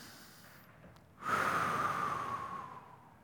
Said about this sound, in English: And take a big breath through your nose and breathe out through your mouth. Literally go.